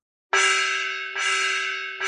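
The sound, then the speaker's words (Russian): An alarm gong rings out across a camp, struck three times in quick succession. Each strike gives a loud metallic clang with a steady ringing tone that decays slightly before the next hit. “Звук тревожного гонга прокатился по лагерю”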